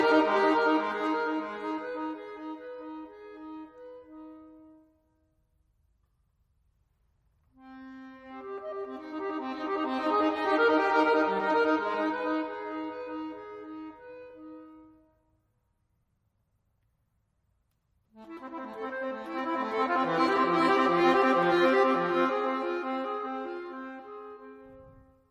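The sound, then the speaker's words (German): Solo accordion playing a contemporary piece in three long sustained chords. Each rich, reedy chord swells and fades, with near-silent pauses between them. “das andere Stück heißt Alpha und wurde für eine Akkordeonspielerin geschrieben. Die Uraufführung hat Stefanie Schumacher gespielt und das klingt so.”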